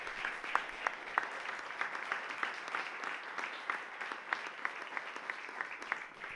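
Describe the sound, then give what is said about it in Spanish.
Applause at a memorial tribute to a murdered activist, faint and steady clapping throughout with a few sharper individual claps standing out. “Así que quiero pedir un fuerte aplauso para Sandra Cabrera, presente hoy y siempre, compañera.”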